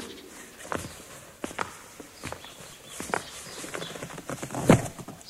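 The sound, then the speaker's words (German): Footsteps of people climbing a staircase while carrying a heavy crate, heard as several irregular, soft thuds at uneven intervals over a low hiss, with one louder step near the end. “Jetzt gehen die wohl die Treppe rauf.”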